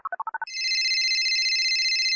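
An outgoing telephone call: six quick, evenly spaced dialing tones, then a loud, steady warbling ring tone that holds to the end.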